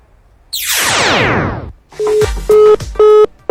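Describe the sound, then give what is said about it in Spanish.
A telephone disconnect tone as a call cuts off: a falling swoosh is followed by three evenly spaced, steady electronic beeps with a bright, buzzy timbre. “Bueno, ya se cortó, creo, la llamada.”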